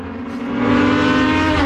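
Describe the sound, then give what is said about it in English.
Race cars at a local speedway in Virginia on a summer Saturday race day produce a steady, harmonic engine drone that swells in loudness over the first half, then holds strong. “It's race day at Shenandoah Speedway, like it is most Saturdays in the summer.”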